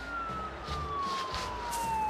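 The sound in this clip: A police cruiser siren wails steadily, its tone gliding slowly downward over a low background rumble.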